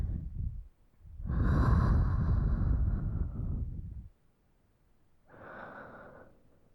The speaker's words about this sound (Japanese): 吸って吐け。